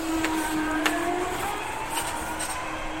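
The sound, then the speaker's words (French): Steady electric motor whine and rolling hum from a small electric shuttle bus in central Bordeaux, holding an even level throughout with a few faint clicks. “Alors ça, c'est une petite navette électrique qui ne marche que dans l'hypercentre de Bordeaux.”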